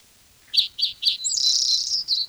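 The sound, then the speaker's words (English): A black-throated gray warbler sings three short, high, buzzy notes in an even rhythm, then a longer sustained buzzy phrase and a final short note, clear over a quiet background. “Black-throated gray warbler in there.”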